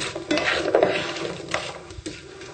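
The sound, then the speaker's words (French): Spatula stirring sliced apples into melted vegan butter in a pan on the stove, a few scraping, clattering strokes spaced unevenly over a low, steady background. “Alors, on mélange pour enduire les pommes de ce corps gras.”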